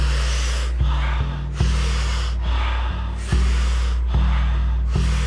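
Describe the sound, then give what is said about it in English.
Rhythmic breathing from a breathing exercise: many short, airy, forceful exhales, each a burst of breath repeating at a steady pace of about one per second, with no talk. “The exhale is a soft exhale, letting just about a third of the breath out. We do it rhythmically, we'll do it together, and it'll sound like this.”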